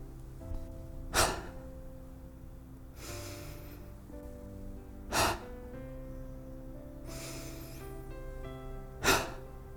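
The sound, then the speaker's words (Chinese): Forceful abdominal breaths from a breathing exercise: three sharp, loud exhalations alternate with softer, longer inhales over quiet background music. “快速地用腹部吐气，用横膈膜将空气往外挤，重复的用力吸吐十秒钟。我们一起做。”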